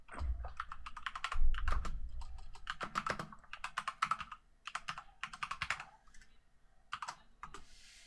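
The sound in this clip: Fingers type on a computer keyboard, tapping out many quick, uneven keystrokes in bursts separated by short pauses, with a few heavier thumps near the start.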